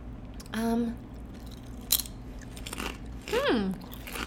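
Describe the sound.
One sharp, bright crunch of a bite into a wasabi-flavored chip cuts through near the middle, framed by brief hummed vocal sounds before and after.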